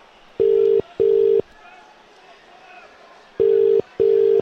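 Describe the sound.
Telephone ringback tone of an unanswered call, heard as two double rings: pairs of steady, mid-pitched buzzing tones separated by a pause, with faint hiss between them.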